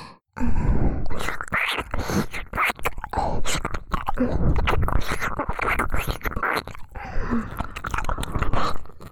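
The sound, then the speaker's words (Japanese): Ear licking in an ASMR recording: dense, continuous wet smacking and slurping mouth sounds close to the ear, loud and steady throughout, with occasional soft grunt-like breaths. “耳舐めて呼吸が初めての感覚だから、体が強く反応してるんだね。”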